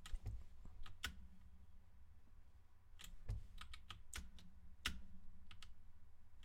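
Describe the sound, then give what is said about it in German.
Faint, sharp clicks from a computer keyboard as someone repeatedly presses a space bar that is not working. The presses come in many irregular taps with gaps between them, over a low, steady background hum. “Ich drück sie. Ja, wow, Bro, ich, hab, ich drück meine Leertaste. Ich drück meine Leertaste!”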